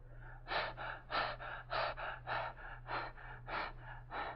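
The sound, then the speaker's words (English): Deep breathing in and out through an open mouth during a doctor's examination, with many loud, rasping breaths in a steady rhythm over a low, constant hum. “open your mouth and very deeply breathe in and out until I tell you to stop”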